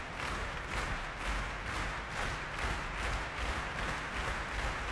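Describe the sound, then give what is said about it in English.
Dense, sustained applause from a concert audience at the Royal Albert Hall calls for an encore after a visiting orchestra's performance. The clapping forms a steady wash of sound that holds an even level throughout. “Well, as you can hear, the audience here at the Royal Albert Hall don't want it to be over. A few people leaving, but not many. There is, of course, a great tradition of encores from visiting orchestras.”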